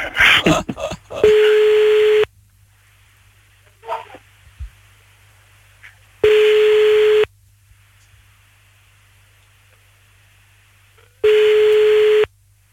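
A telephone call to an uncle is dialled and rings. A quick burst of dialling clicks and tones comes first, then three steady ringing tones, each about a second long, separated by long quiet gaps with a faint hum.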